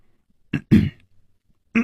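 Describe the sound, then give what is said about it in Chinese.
A man coughs in a few short, rough bursts. The first two come close together and the last follows after a pause, with no talking around them. “戴独行咳了两声说”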